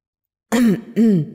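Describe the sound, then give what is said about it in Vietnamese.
Two dry coughs clear a man's throat. The two short, rough bursts come one after the other with a brief gap between them and stand alone, with no talk. “Công Tôn tiên sinh ho khan hai tiếng.”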